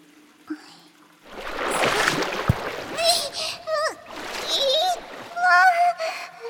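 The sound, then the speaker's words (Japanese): Water splashes and sloshes while someone's back is being washed in a bath's washing area. A burst of splashing comes first, then a high-pitched voice talks over continued wet splashing. “お背中流しますから洗い場行きましょう。”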